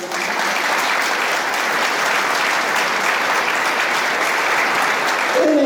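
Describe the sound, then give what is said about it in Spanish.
Loud applause from a crowd at a political speech, a thick, unbroken wash of clapping that holds steady from start to finish and swells slightly near the end. “la compañera Cristina Kirchner, a quien le pido un fuerte aplauso”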